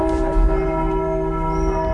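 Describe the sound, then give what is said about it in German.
Church bells ringing at a church in Frankfurt (Oder), bells recast twelve years ago; a steady, loud wash of overlapping sustained tones hums continuously throughout, with no separate strikes standing out and no voices. “Die Glocken der Marienkirche. Vor 12 Jahren sind sie extra neu gegossen worden.”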